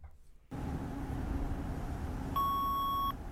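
A voicemail message beep sounds as a single clear, steady electronic tone lasting under a second. Before it there is only a constant low background hiss.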